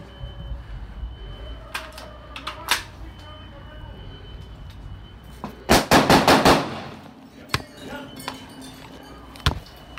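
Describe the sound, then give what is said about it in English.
Gunshots fired from an upstairs window: a few scattered sharp cracks, then a rapid, loud burst of shots in the middle, followed by more isolated reports. “Upstairs window. Upstairs window, three side, shots fired.”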